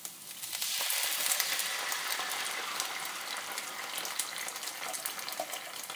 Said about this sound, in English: Right, okay, so chopped tomatoes in.